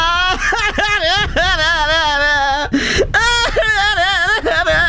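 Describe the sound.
Someone cries and whimpers in long, quavering, drawn-out wails, with short breaks between loud bursts.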